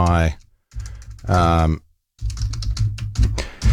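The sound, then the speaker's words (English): Typing a password on a computer keyboard: quick clusters of key clicks, with a voice speaking in the gaps between the bursts of typing. “let me just punch my password”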